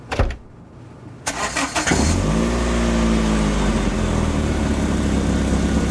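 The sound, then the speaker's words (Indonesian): A car engine is cranked by its starter after the starter cable was reconnected. A few rough cranking bursts lead into the engine catching, followed by a loud, steady running drone that lasts to the end. “Oh, pantesan. Suit kabel starternya copot. Mudah-mudahan benar. Coba di starter.”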